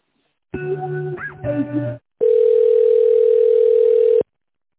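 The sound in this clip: Telephone line tones sound while a call is being connected: a short run of mixed electronic tones is followed by a pause, then a loud, steady, single-pitched dial tone that holds for about two seconds and stops abruptly.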